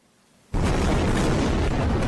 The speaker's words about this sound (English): A violent explosion lights up the city of Gaza.